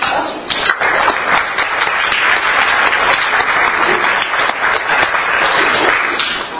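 Loud, steady applause from a Rotary club meeting welcoming a new member, a thick wash of many hands clapping at an even level throughout, with no talking over it.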